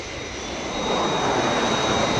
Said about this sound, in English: Aircraft approaching glide path. 4 miles to threshold.